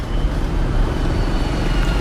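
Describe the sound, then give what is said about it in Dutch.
Heavy street traffic of many mopeds fills narrow, muddy roads lined with wooden houses, shops and canals in a village, a steady dense engine rumble with no breaks. “Houten huizen op een rij, bamboebruggen, winkeltjes en enorm verkeer van heel veel brommers.”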